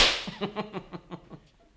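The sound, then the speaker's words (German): A pistol shot: one sharp, bright crack at the start, followed by a quick series of fainter rhythmic pulses that fade out within about a second and a half. “Vorbeigeschossen. Schießen Sie mal in ein dunkles Zimmer.”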